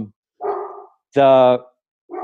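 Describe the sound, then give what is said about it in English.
A pet dog barks at someone during a home recording. A few sharp, loud barks ring out one after another with short gaps of silence between them. “So, sorry, that's my dog barking at somebody.”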